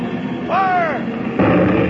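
A ship's deck gun firing at attacking planes, a brief arching whine followed by a loud, sharp blast over a constant rumbling background roar.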